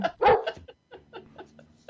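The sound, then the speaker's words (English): A dog barks: a few sharp, quick barks at the start, followed by softer, shorter yips and whimper-like sounds that trail off. “there's Dave the dog”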